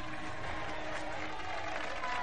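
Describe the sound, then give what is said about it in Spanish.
Mine workers applaud in celebration of a victory in a historical drama: steady, dense clapping that runs evenly and faintly throughout without a break. “Los trabajadores de la mina aplauden y levantan sus brazos a señal de victoria.”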